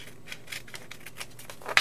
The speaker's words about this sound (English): So why don't I just fold it like that? And I'm going to cut along here, and I'm going to cut along here.